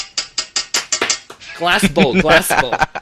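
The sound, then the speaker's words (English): A spoon knocks on a porcelain bowl in a quick run of bright, clinking taps, about seven evenly spaced strikes. People start talking after the taps. “They would knock on the bowl. They use a spoon to knock on the bowl. Ting, ting, ting, ting, ting.”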